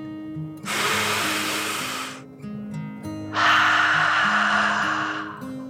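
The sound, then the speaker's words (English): A slow, deep breath in and out during a children's guided meditation: two long, airy, breathy rushes, the inhale and then a louder exhale, each lasting about two seconds, over a soft, steady music bed. “He took one more deep dragon breath, in and out.”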